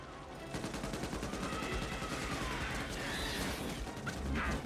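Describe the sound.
Rapid machine-gun fire from a double .50 caliber mount in a film, a dense, unbroken stream of sharp cracks and thuds that holds loud for the whole stretch.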